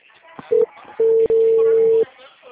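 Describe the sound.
Ringback tone of an outgoing phone call: a short steady beep, then a longer tone with a brief break in the middle, over faint background voices.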